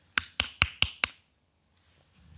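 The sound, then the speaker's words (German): Five sharp knocks on a door in quick, evenly spaced succession, each a crisp percussive rap, followed by near silence. “klopfte es an die Tür.”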